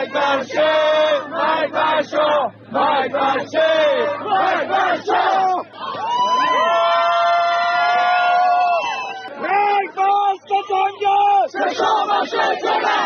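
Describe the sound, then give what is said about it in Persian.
Crowd of People's Mojahedin supporters chanting slogans in unison, loud rhythmic bursts of massed voices, then a long held collective shout, then more short chanted phrases. “مانند تجمعات وابسته به اقلیت‌های قومی، گروه‌های سیاسی چپ و یا مانند این صدای هواداران سازمان مجاهدین خلق.”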